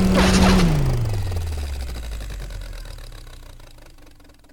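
A machine powering-down sound effect: a loud engine-like hum whose pitch slides steadily downward, then trails off into a low, fading rumble over several seconds.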